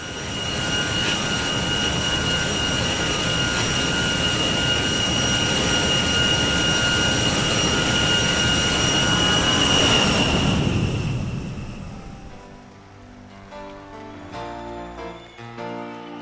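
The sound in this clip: A jet airliner takes off with a loud, sustained roar and a high engine whine that holds steady, then fades away and gives way to music.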